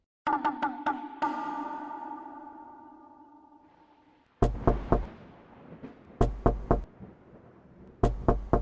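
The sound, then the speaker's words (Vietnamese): Knocking on a door three times at a time: after a long ringing tone fades away, three sharp sets of three quick knocks follow, separated by short pauses. “Mạnh Đạt gõ cửa 3 lần, mỗi lần 3 tiếng”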